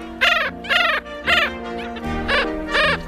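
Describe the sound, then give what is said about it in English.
Black skimmer calls: a series of several short, nasal, barking notes, loud and harmonically rich, repeated at a fairly steady rhythm with brief gaps between them. “The black skimmer, our featured feathered friend, here on Talkin' Birds.”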